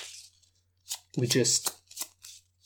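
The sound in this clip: Playing cards shuffled during a card game: short, quiet papery riffling bursts interrupted by a person talking.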